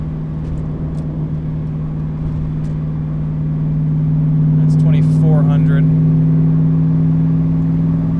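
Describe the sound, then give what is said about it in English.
A car engine under light throttle, held at about 2,500 rpm with the driver's foot well off the floor, makes a steady low drone that swells a little midway and then holds. “Just a little bit of throttle. I'm not putting my foot to the ground. That's 2,500.”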